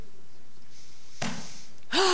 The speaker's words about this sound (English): Take a breath.